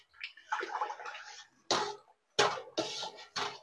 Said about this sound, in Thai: น้ำยาล้างจานนี้เราใช้1ช้อนโต๊ะค่ะต่อน้ำ3ลิตรนะคะค่ะแล้วเราก็คนเลยค่ะคนให้เขาเข้ากัน